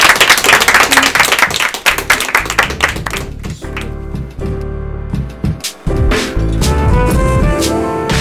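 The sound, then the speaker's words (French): Applause from an audience at the close of an interview: a dense, loud wash of many hands clapping that continues steadily for several seconds, dipping briefly before swelling again. “J'aimerais quand même t'applaudir.”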